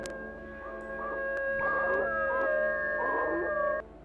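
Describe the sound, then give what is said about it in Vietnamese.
A dog howls in the night, with drawn-out, wavering cries rising and falling over a steady sustained background tone. “Bất ngờ, từ đâu tiếng chó tru lên văng vẳng trong đêm.”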